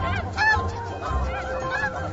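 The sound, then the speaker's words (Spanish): Snow geese honking at a crowded nesting ground, a few nasal, clearly pitched honks rising above the steady background chatter of a large flock. “Los ánsares nivales pasan el invierno en el Golfo de México y tras volar 4.000 kilómetros se instalan para anidar en grupos numerosos.”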